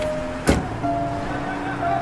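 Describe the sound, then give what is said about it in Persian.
Someone getting into a car, likely a Patrol, marked by one short, sharp thump like a door shutting. A steady low background hum runs underneath. “سوار ماشین میشه.”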